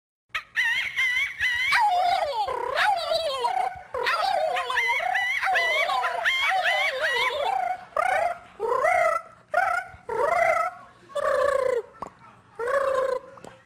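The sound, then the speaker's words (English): A trio of young Piedmont women imitate a turkey call. Loud, high, rapid warbling gobbles run for several seconds, then break into a string of shorter separate yelps with brief gaps between them. “Although I'm not sure if anybody ever tricked a turkey with a call that sounded like this.”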